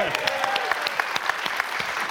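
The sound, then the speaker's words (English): Audience applause at a live show, dense and steady throughout, with many sharp individual claps standing out above a continuous wash of clapping. “Round of applause for Mick Foley”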